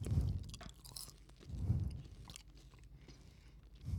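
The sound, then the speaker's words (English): Faint chewing of a salty food, with a few soft, low munching bursts and some crunch-like texture separated by quieter pauses. “No, let's eat it, and then I'll tell you what I bet it tastes like.”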